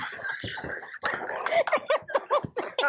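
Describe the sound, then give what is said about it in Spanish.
Three dogs clamour for attention, climbing onto their owner: a rapid, uneven string of short, high-pitched barks, yelps and whines, loud and excited throughout. “No, okay, me están cayendo encima los tres perros aquí. Me está exigiendo, tócame a mí, tócame a mí.”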